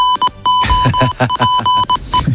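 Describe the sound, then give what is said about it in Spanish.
A goal alert jingle sounds as a loud burst of bright electronic beeps and buzzy pulses in quick succession, with steady high tones running through it, heard alone without talk. “Suena el aviso de gol de tiempo de juego.”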